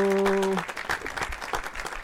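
Applause welcomes two guests onto a show. A held musical tone cuts off after about half a second, then uneven, fairly quiet clapping from the audience continues to the end.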